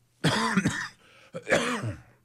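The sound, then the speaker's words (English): Rough, throaty coughing from someone with a lingering cough and a croaky voice. Two raspy bursts are separated by a short pause, with no talk. “Excuse me. As I mentioned, I got a little bit of a cough thing going on.”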